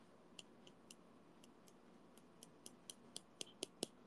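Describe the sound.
Scissors snipping: faint, crisp metallic clicks come sparsely at first, then quicken into a steady run of many sharp snips toward the end.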